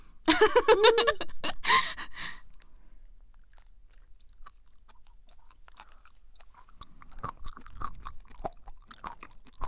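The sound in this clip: Chewing salty seaweed: loud, crisp, crunchy bites fill the first two seconds, followed by soft, quieter mouth and chewing sounds that continue faintly to the end.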